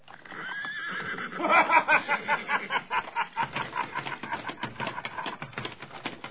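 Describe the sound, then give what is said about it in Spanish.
A white horse neighs with a loud, shaking whinny that swells to a peak, then breaks into a long series of quick rhythmic pulses that continue steadily to the end. “al escuchar el relincho del caballo blanco y la carcajada franca de Nahum Briones”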